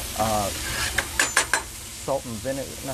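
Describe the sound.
Steak frying and being stirred on a deli grill gives a constant loud sizzle, broken by several sharp metallic clinks and scrapes of the utensil against the hot surface.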